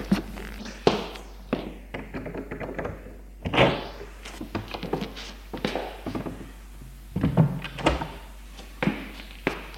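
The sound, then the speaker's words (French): A door is opened in a dark corridor, a series of knocks, taps and hollow thunks, some sharper and louder than others, spread unevenly with no voices. “Emilien, il le conduit et ouvre une porte.”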